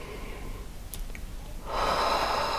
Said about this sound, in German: einfach ein paar bewusste Atemzüge mit mir zu nehmen und zwar mal tief einzuatmen